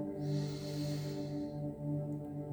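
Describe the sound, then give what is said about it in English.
A deep breath drawn in, a single airy rush lasting about a second over a steady, low humming drone. “Breathe in deeply.”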